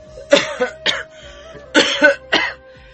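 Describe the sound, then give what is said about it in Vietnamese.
Hoarse, rasping coughs from a hunched, dishevelled old man sitting on a plank bed, coming in two short clusters of harsh bursts separated by a brief quiet gap. “Lão vừa ho khàn khàn, vừa cào nhàu trong miệng.”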